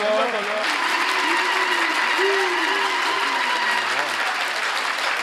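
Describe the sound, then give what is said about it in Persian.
A gathering claps at a Persian religious recitation honoring Hussain. The clapping stays steady and continuous throughout, while a voice recites melodically over it. “کف قشنگ بزن، دست بیار بالا.”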